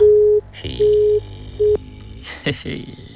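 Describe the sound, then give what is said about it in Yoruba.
A busy tone sounds after a phone call line is cut off: three short, steady mid-pitched beeps, the third cut short, followed by a person talking. “arábìnrin tó ń pè lákọ̀ọ́kọ́ yẹn àwọn náà ni wọ́n pè báyìí àkọ́kọ́ tó ń pè náà bójú òpó yẹn ṣe já nìyẹn wọ́n tún pè lẹ́lẹ́ẹ̀kejì ó tún já”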